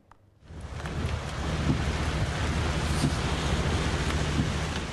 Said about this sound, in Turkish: Ülkede etkili şiddetli rüzgarlar dev dalgalar oluşturdu, vinçleri devirdi.